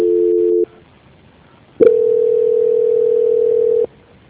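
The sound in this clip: Telephone tones sound during a call transfer: a short, steady two-note tone, a second of silence, then a longer, loud, steady single tone that cuts off abruptly. No voices are heard.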